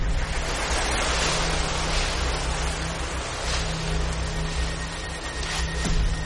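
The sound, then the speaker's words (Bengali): Wind gusts through a mango grove at midnight as a steady, dense rushing roar that holds a fairly even loudness throughout, with no voices. “ঠিক মাঝরাত পেরিয়ে যাবার পর হঠাৎ যেন এক ঝলক হাওয়ায় বাইরের আমবাগান কেঁপে উঠল।”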